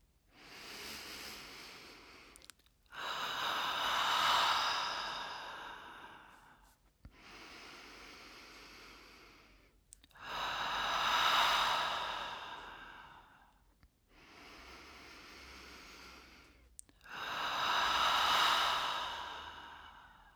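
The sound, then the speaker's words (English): Three slow, deep breaths with no talk. Each long inhale is followed by a long whooshing exhale in an even, unhurried rhythm. “Close your eyes and take 3 deep breaths.”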